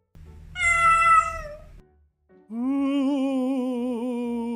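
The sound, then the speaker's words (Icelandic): A cat meows twice: first a short, high-pitched meow, then a longer, lower meow with a wavering, sustained tone, clear and with no talk. “Kisan gefur frá sér þetta fallega hljóð sem heitir að mjálma.”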